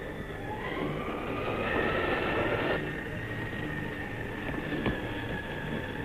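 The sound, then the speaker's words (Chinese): An express train bound for Vienna pulling into a station platform, a steady heavy rumble overlaid with drawn-out high whining tones that persist throughout, with no voices. “注意注意，二十一次要进站了。 请站台上的旅客注意往后靠。”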